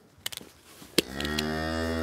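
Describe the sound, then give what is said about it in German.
A cow moos in a barn: a few sharp knocks come first, then one long, loud, low moo with rich harmonics that holds to the end. “Ja, wir können die Kuh auf jeden Fall rauslassen. Die kann jetzt wieder zu den anderen.”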